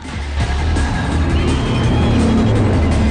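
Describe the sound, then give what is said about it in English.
Four race cars drive down the main strip toward the start line, their engines making a loud, steady rumbling drone that holds throughout with little change in pitch. “The four competitors, Dom, Briar, Edwin, and Danny Yamato, drive down the main strip towards the start line.”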